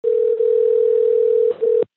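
A telephone ringback tone sounds on a call to a man still recovering from COVID-19: one steady low-pitched tone, loud and unbroken apart from a brief dip near the start and a short break near the end, with no voices.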